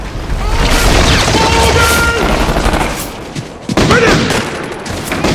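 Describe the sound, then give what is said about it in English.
A rocket explodes against a stone pillar at an entrance amid a loud, sustained barrage of gunfire and blasts. The din briefly eases, then a sharp new explosion bursts in near the end. “Rocket hits the entrance, destroying a pillar. Rick and Alex dodge the falling debris. A rocket whacks into another pillar.”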